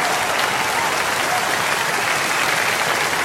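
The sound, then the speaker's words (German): Audience applause, dense, loud and steady, with clapping filling the whole stretch at an even level and no voices standing out. “Jetzt müssen Sie so lange klatschen, bis er runter ist.”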